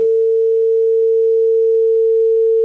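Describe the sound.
A telephone tone sounds after a call line drops: a single loud, unbroken mid-pitched hum that holds steady throughout, with no voices.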